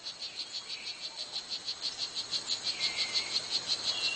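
Male strawberry poison dart frog calling to attract a mate: a long, even series of rapid, high-pitched buzzing chirps in a steady rhythm, fairly faint and alone, growing slightly louder toward the end.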